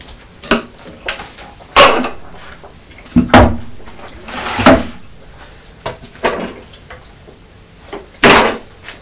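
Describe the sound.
Cupboard door opening and closing as plates are taken out, heard as a series of wooden knocks and clunks at uneven intervals, with a louder knock near the end and no talk.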